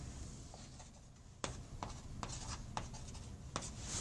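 Writing on a board during a physics lecture comes through as a few faint, scratchy strokes. Short sharp marks stand out against a quiet background.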